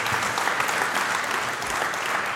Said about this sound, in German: Komm, trotzdem Applaus.